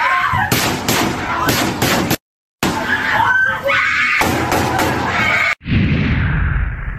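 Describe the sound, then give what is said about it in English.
Gunfire inside a high school classroom during a mass shooting, recorded by students: several sharp, loud cracking shots in a rapid burst over panicked screaming, broken by a brief gap of silence before more chaotic noise. “Here is the footage from inside room 1215 as terrified students recorded the shooting.”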